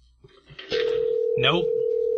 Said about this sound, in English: When it goes to his voicemail, let me just hang up.